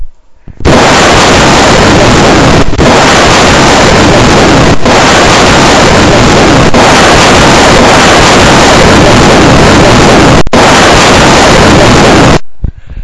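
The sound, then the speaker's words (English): A rocket blasting off at launch roars loudly and steadily for about twelve seconds, a dense full-range rumble with a few brief breaks before it cuts off. “5, 4, 3, 2, 1. Blast off!”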